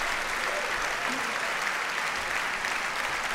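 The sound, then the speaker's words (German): A crowd applauds a conductor walking off after a carnival concert in Bonn, with thick, steady clapping that stays at an even level throughout. “Er nimmt den Beifall der Menge beim Rauslaufen entgegen.”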